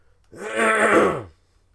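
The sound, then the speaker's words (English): Throat clearing: a single rough, drawn-out rasp lasting about a second, rising in loudness and then fading, alone against quiet. “So, excuse me. I gotta do a throat clearing thing. This is bugging the shit out of me.”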